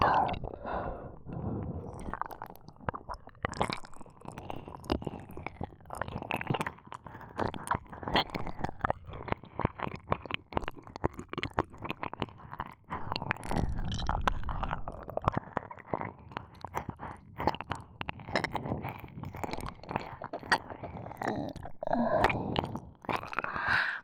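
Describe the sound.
ASMR mouth sounds of pretend-eating an ear: a continuous stream of close, wet, chewing-like smacks and clicks with soft breathy noise, many quick events at a fairly even, busy pace throughout.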